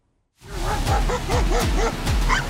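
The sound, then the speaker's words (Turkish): Stray street dogs in Şırnak bark in a quick run of several short, yelping barks after a brief silence, moderately loud with no talk. “Şırnak'ta ise başıboş köpekler küçük bir çocuğa dehşeti yaşattı.”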